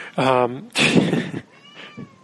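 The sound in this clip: A cat meows: a loud, drawn-out harmonic meow, then a harsher, noisier cry, followed by fainter trailing sounds.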